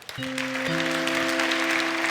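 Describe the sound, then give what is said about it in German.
Audience applause after a technical talk begins abruptly and holds steady and loud, with sustained held tones sounding beneath the clapping. “Herzlichen Dank und großen Applaus bitte.”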